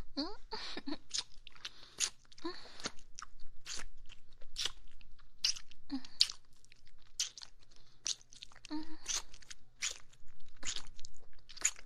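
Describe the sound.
Someone chewing and crunching a snack from a paper packet, with many sharp, crisp crunches in an uneven rhythm, fairly faint, with quiet gaps between bites.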